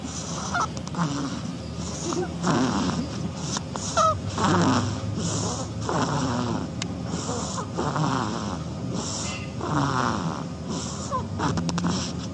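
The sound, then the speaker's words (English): A baby duckling snoring: soft, nasal, rasping breaths with a faint honking quality, repeating in a steady rhythm throughout. “This is the sound of a baby duckling snoring.”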